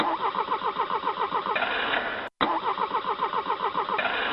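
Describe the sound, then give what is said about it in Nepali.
A generator engine is cranked and fails to start: two long bursts of rhythmic, chugging starter pulses, separated by a brief silent pause, with no catch into running. “Sir यो generator नै start भइराको छैन”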